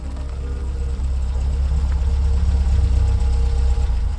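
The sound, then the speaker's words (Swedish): Car engines running, among them a limousine's, giving a loud, steady low rumble with a constant throbbing vibration that holds evenly throughout, with no voices. “Fordonen kör fram till sitt mål och stannar.”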